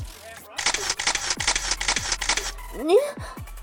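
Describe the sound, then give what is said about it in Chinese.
A camera shutter fires in a rapid run of many crisp, bright clicks, evenly spaced over about two seconds, then stops. “你怎么可以拍照片？ 快删了！”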